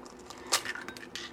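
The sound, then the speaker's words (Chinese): An egg cracked into a bowl gives one sharp, bright crack with a short wet squish. A few faint clinks and taps follow at low level. “好，那就准备一个碗，哎呦，那我们打蛋，”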